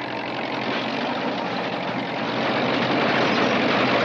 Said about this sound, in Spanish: El coche avanza contra la ventisca, atravesando las blancas dunas heladas creadas por la nieve.